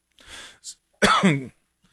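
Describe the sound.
A person coughs and clears their throat: a rough, breathy burst, a brief second puff, then a louder, voiced throat-clearing rasp, all alone with no talk.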